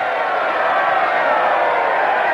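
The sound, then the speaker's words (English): Throngs lining a road cheer a royal coach procession after a coronation, a steady, broad crowd roar holding at an even level without clear individual shouts. “They nod to cheering throngs, which line the sides of the road.”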